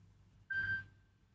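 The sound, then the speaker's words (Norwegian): A telephone rings with a single short electronic tone, steady in pitch and fairly faint, fading into a thin trailing note over a quiet background. “Det ringer, det ringer, hør, hvem kan det være?”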